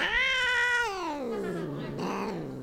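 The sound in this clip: An unhappy cat yowls in two loud, drawn-out meows. The first is long and slides downward in pitch, and a shorter strained cry follows. No other sounds are heard.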